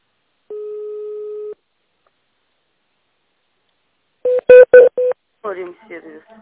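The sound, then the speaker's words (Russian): Telephone keypad tones dial an employee extension on a company phone line. A steady one-second beep comes first, then a pause, then four short, sharp tone bursts in quick succession, followed by brief choppy tones. “Если вы знаете номер сотрудника, наберите его в тоновом режиме или оставайтесь на линии.”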